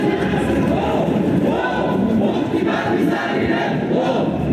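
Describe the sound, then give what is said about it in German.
Thousands of demonstrators, some masked, march through central Vienna in 2014 against the Akademikerball. Chants and shouts blend into a steady, dense crowd roar, with rising calls swelling above it. “Was Sie hier hören, ist eine Demonstration gegen den Akademikerball im Jahr 2014.”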